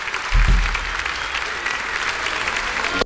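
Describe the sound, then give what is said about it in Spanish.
Applause from an audience: a dense, steady burst of many hands clapping for about three seconds, with a brief low thump near the start. “El aplauso.”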